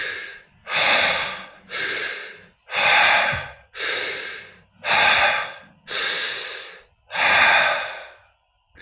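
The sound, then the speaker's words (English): Deep belly breathing in a demonstration: eight loud, forceful breath sounds in a steady rhythm, inhales and exhales following one another with no pause between them. “So the idea is to breathe deep into the belly, fill it up, and then go exhale right back out.”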